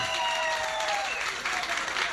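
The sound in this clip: Applause from a crowd for a guest's supporters at a talk event: dense, steady clapping fills the whole short clip at an even level.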